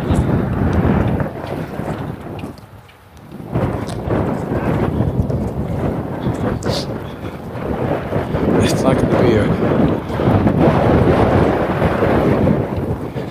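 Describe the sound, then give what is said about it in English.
Strong wind blasts a foam-covered microphone with a loud, continuous roaring rumble that gusts and buffets throughout. The roar dips into a brief lull a little before the third second, then swells again. “I don't know if the foam is going to be enough to protect the microphone against this kind of wind or not.”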